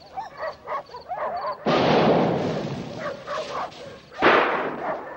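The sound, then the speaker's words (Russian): A distant explosion in a film scene: two loud, rumbling blasts, the first rolling on for about a second, the second shorter and sharper. “Слышит вдалеке взрыв.”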